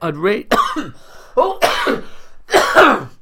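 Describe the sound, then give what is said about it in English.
A person coughs in several throaty bursts, some with raspy, voiced tails, coming in an irregular run and loud against otherwise quiet surroundings. “As always, nice to have a cough on the podcast.”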